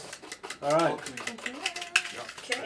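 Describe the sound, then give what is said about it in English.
A whisk stirring quickly in a bowl of baking mixture with bicarbonate of soda gives a rapid, steady ticking and clinking under people talking, with a couple of sharper metallic clicks. “When you're at home, do you normally use a whisk like that, or is it an electric thing all the way?”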